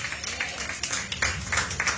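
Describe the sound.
A church audience clapping hands as an offering of praise to God, many fairly faint claps forming a steady, uneven patter.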